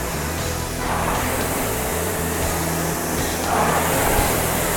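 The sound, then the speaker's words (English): Steady fan-like whoosh of air from a Concept2 RowErg rowing machine flywheel spinning under power, swelling louder on the drives around one second and again near the end. “Push that machine away.”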